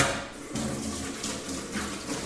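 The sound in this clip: Tap water running into a sink as a grater is washed under it, a steady rushing flow with small splashing shifts as the stream hits the utensil.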